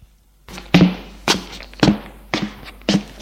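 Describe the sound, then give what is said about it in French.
Knocking on a glass door in a shop's back room: five sharp, evenly spaced raps, fairly loud, with nothing else around them. “Il frappe à une porte vitrée.”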